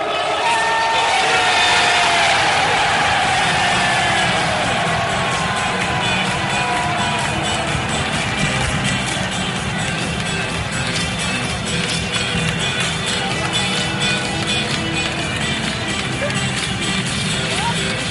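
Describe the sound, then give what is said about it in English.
Football fans roar and cheer as Nottingham Forest beat Huddersfield 1-0 to win promotion to the Premier League. A dense, sustained wall of crowd noise is loudest at the start and stays steady throughout. “That was the sound of Nottingham Forest regaining their place in the Premier League after 23 years.”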